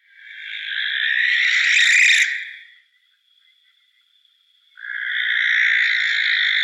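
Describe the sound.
A barn owl's call: two long, harsh, hissing screeches, each lasting a couple of seconds, separated by a quiet gap with only a faint thin tone, loud and raspy.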